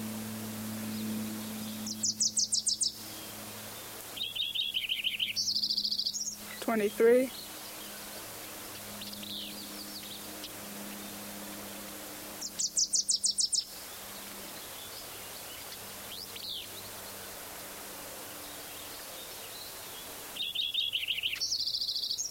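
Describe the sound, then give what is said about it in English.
A Wilson's warbler sings several times: each song is a quick, chattering run of high, bright notes, spaced apart over a faint low drone from a plane overhead. “Wilson's warbler at the end. Plane overhead.”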